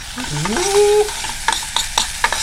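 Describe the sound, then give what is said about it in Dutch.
Food sizzling as it fries in a pan on a one-burner stove, a steady hiss with a few crisp pops and crackles scattered through the second half. “Het staat al aan te bakken.”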